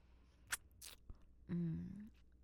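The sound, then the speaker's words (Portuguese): Popcorn being chewed: a couple of crisp crunching bites and a small click, followed by a short hummed, voiced sound, all fairly quiet. “Que gostoso isso. Você comendo pipoca enquanto te damos um show.”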